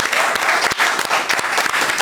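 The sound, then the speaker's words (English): A studio audience on a cooking show claps loudly to welcome a chef. The applause is dense and continuous, with sharp individual claps standing out. “Put your hands together, please, for Poppy O'Toole.”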